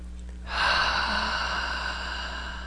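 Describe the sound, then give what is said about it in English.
A single long, deep inhalation that starts abruptly after a brief hush, then flows steadily and softens gradually, with a low steady hum underneath. “Nice deep breath.”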